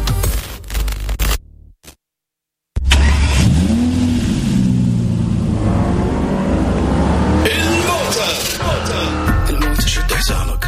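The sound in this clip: Car engine revving and accelerating hard, a loud roar that kicks in after a brief silence and holds a strong, sustained engine drone with rising tones.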